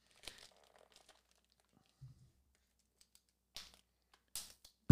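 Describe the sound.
Crinkling and tearing as tape is pulled from a package of boards taped together. A few faint, sparse crackles and rips, with the loudest burst at the end.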